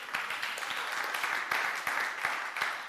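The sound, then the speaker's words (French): An audience applauding during a church sermon, a continuous round of clapping at moderate level, with a few sharper individual claps cutting through the dense patter. “Est-ce qu'on peut acclamer la parole de Dieu?”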